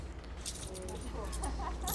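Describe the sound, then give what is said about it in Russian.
Keys jangling as they are handed over, a few faint metallic clinks heard under quiet voices. “Что это? Это ключи от квартиры от моей.”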